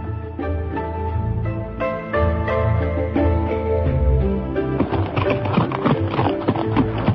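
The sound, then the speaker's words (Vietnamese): A horse galloping with two riders on its back through mulberry orchards, its hooves clip-clopping in a steady, rhythmic run of taps that continues throughout. “Đoàn Dự cùng với Ngữ Yên cưỡi chung một con ngựa, phóng qua không biết bao nhiêu vườn dâu.”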